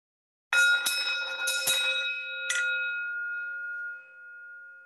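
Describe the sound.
A bell rings to close part of a memorial ceremony for the dead: a few quick bright strikes in succession, then a clear sustained tone that slowly fades, heard alone without voices.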